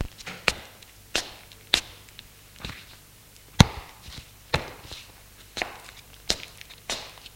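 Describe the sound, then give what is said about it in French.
Barefoot footsteps cross a bedroom floor while clothes are picked up from the ground. The steps form a steady series of sharp, distinct impacts with quiet gaps between them. No voices are present. “Il marche pieds nus dans la chambre et ramasse ses vêtements qui sont à terre.”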